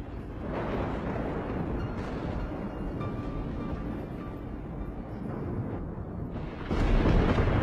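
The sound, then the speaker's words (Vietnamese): Thunder from lightning strikes rolls as a sustained, deep rumble that fills the whole stretch, holding fairly steady before swelling into a louder, harsher burst near the end. “Trên bầu trời bỗng nhiên giáng xuống mấy tia sét đình tài nhức óc.”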